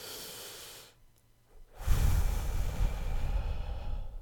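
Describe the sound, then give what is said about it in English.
A long drag on a strawberry vape: a steady, airy hiss of inhaling, a short pause, then a louder, breathy exhale with a low, rushing rumble that continues to the end. “He puts his vape to his mouth and takes a long, frustrated drag.”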